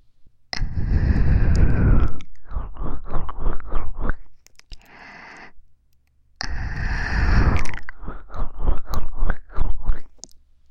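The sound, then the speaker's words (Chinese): Someone bites into food and chews it with loud, crisp crunches. Two forceful bites each set off a run of many quick, rhythmic crunching chews, with a quieter stretch between them. “姐姐真的要忍不住了，那就让我先吃一口吧。”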